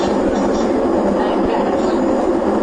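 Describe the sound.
A metro train runs through a narrow tunnel as it nears a station, with a loud, steady roar and rumble of wheels and carriages throughout and no letup.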